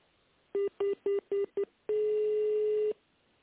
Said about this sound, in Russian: Если вы знаете внутренний номер абонента, наберите его в тоновом режиме и дождитесь ответа секретаря.